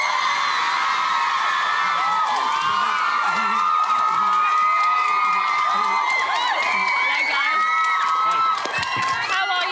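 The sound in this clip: Girls in an audience scream and cheer as a pop band appears, a loud, continuous wall of overlapping high-pitched shrieks whose pitch keeps swooping up and down.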